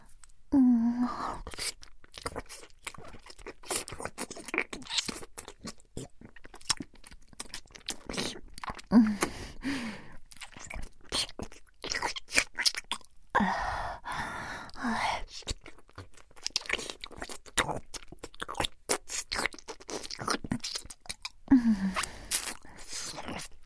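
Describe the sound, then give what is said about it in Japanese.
Ear-eating ASMR mouth sounds: close, wet chewing, licking and smacking, with many soft crunchy clicks and small bursts scattered throughout, occasional breaths between them, quiet overall. “さあ、かわいい耳穴食べちゃおうかしら。”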